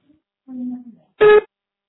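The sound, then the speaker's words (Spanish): A voicemail beep before the message is left: one short, bright tone lasting about a fifth of a second, loud against silence, just after a brief trailing voice. “Deja tu mensaje después del beep.”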